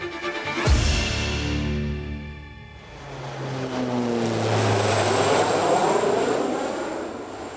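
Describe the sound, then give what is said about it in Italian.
Propeller aircraft at a Dallas airport: a heavy engine drone starts abruptly and loud, eases off, then builds again into a broad swelling roar with a thin high whine held above it. “Michael O'Leary arriva all'aeroporto di Dallas.”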